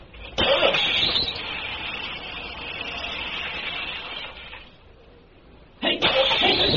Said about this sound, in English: Battery charged and hooked up. Filter tapped out and bled. Injectors bled off and tight. Got the tools in the back, along with the coveralls and that blanket. All set to hot wire and crank it up.